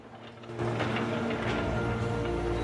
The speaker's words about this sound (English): The man watches closely as the machine digs deeper.